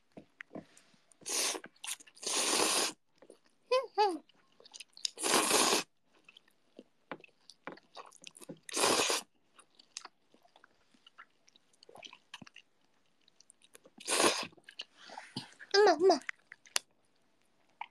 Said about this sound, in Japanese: ラーメンすする音を聞いてる。恥ずかしいな。